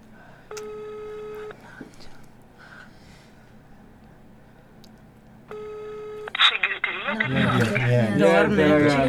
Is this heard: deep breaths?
no